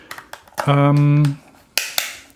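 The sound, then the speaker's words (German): Sharp plastic snaps of the lid on a Biologic bike mount for iPhone 5 being closed, with a handful of crisp clicks around a brief voiced sound in the middle. “Beim Bike Mount ist es so, das kann man aufmachen. Da kann man das iPhone einfach reinlegen, Deckel drauf, zuklappen.”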